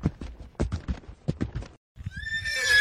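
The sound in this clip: Horse hooves clip-clop in a quick, steady rhythm as a rider arrives, followed by a shrill, rising whinny from the horse at the end.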